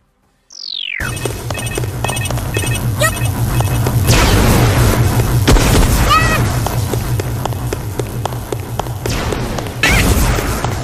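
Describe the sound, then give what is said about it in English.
Laser launcher fire in a video game: a quick descending zap opens, then a dense, loud wash of game noise carries repeated thuds and a few more sweeping zaps. “Combat log, laser launcher's laser took you 1 damage.”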